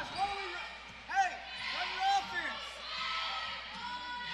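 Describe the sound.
A basketball is dribbled on the court during a women's game, with a few soft, irregular thumping bounces under steady crowd noise and voices.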